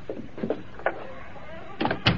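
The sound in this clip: A door is shut in a house with a front room; the door was left unlocked. A few soft thuds and clatters sound at a low level, ending in two sharper knocks.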